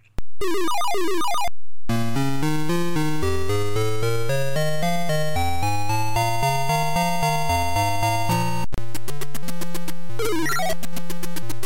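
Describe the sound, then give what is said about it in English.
Square-wave chiptune music and bleeping effects from the Blue Print arcade game, driven by two AY-3-8910 sound chips. A loud, continuous stepping melody of sharp electronic tones runs throughout, with rapid warbling blips at the start. “It uses a dedicated PCB with two Z80s and two AY38910 sound chips, and it sounds like this.”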